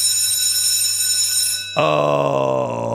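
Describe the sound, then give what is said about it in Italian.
A small bell rings once with a sudden struck onset. Its bright, clear tone sustains and slowly decays, following a steady, faint high-pitched tone. “suona sta campanella, suona, suona, suona.”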